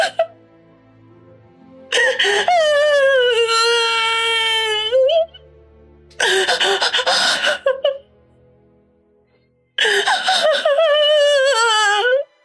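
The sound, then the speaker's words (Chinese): A woman sobs loudly in three long, drawn-out wailing cries, with quiet, shaky breathing in the gaps between them. “当‘走了’两个字出口之后，便也再也控制不住，嚎啕大哭了起来。”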